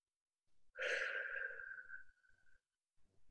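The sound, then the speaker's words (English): A slow exhale during a breathing practice comes as a single soft, breathy sigh with a faint voiced tone. It lasts under two seconds and trails away, followed by a few faint small noises. “Bringing your attention to your breath. Exhale slowly, spiraling down.”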